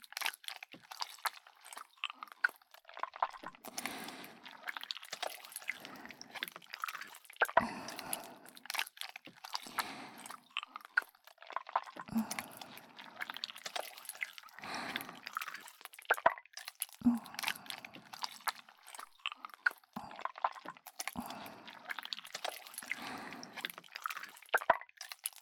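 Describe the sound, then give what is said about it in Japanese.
Various kinds of slime being squished: many soft, wet squelches and sticky crackles in an uneven, continuous rhythm, quiet and close, with no voices. “今からいろんな種類のスライムを使ってあなたのお耳を癒してあげます。”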